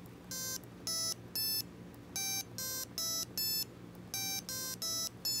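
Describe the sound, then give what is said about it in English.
Electronic tuning notes from a microcontroller board play through a small amplifier and speaker: many short, bright beeping tones in quick groups, each at a different pitch, with brief gaps between the groups. “I've added a speaker just to make it a little louder, a little amp and speaker. And when I press the A button, it's going to cycle through those notes for us.”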